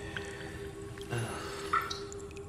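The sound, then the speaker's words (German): Water drips in a few faint, sparse drops, each a small soft plink, over a quiet steady hum. “Das Wasser tropft immer noch. Tja, damit musst du wohl leben. Du solltest froh sein, dass es nur tropft.”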